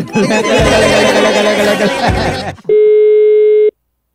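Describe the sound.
A telephone rings, a single loud, steady electronic ring tone lasting about a second, which comes right after a stretch of loud voices and other sound and then stops abruptly into silence.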